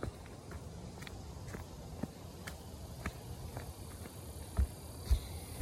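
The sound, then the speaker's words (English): Footsteps cross a small wooden platform built over muddy, swampy ground at a camp, with many soft, regular treads at an even walking pace under a constant outdoor hiss and a couple of heavier thuds near the end. “I'm walking across a little wooded platform that goes over some muddy, swampy areas.”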